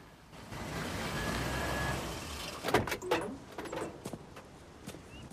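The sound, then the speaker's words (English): A 4x4 rumbles low as it pulls up, then several quiet clunks and knocks follow as its doors open and shut and people get out, the whole scene faint and without talk. “George and Kathy drive up to the house and get out of the 4x4.”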